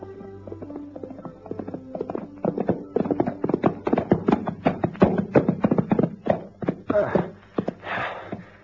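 Horse hooves clip-clop steadily while riding in the veld, a long run of sharp, even hoof beats that grows louder and busier partway through, with no voices.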